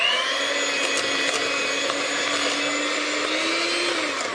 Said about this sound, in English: Add all the other ingredients and whisk them, preferably with an electric hand whisk. Here we go.